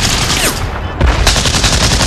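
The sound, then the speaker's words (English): Gunfire from a 20 mm gun and rifles in a war film battle scene: rapid, sharp shots in dense bursts that dip briefly, then return louder and fuller. “The Germans reposition the 20 mil and return fire. Ryan keeps firing as Miller and Ryben reload.”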